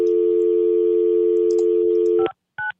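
A telephone error tone sounds after a number is dialed in Albuquerque without the 505 area code: a loud, steady, buzzing tone holds for about two seconds, cuts off abruptly, then a brief higher beep follows.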